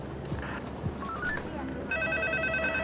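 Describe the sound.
A telephone rings in a film scene, its bright, steady electronic trill of sustained tones setting in partway through and continuing to the end, over a murky bed of background noise.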